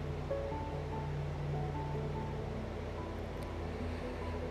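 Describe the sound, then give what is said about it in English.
Muted moving water in a cove, a soft, steady wash that runs continuously without distinct splashes or breaks. “You hear sounds of the water moving, but it's muted.”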